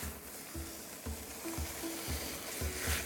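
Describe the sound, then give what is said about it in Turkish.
A stew sizzles in a pot as it is stirred, with a faint steady frying hiss broken by several soft, regular scraping strokes of the spoon. “İyice karıştırıyorum. Şahane kokular geliyor.”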